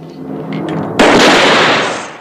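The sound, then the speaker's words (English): Rifle gunshots from three men firing at the same time merge into a single loud, sharp blast, followed by a long noisy decay over a low background rumble. “All three men shoot at the same time.”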